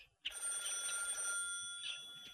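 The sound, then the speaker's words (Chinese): A telephone bell rings in the next room, a faint, continuous jangling ring with a sharp onset that carries on for about two seconds. “隔壁房间里的电话响了，安在天接起了电话。”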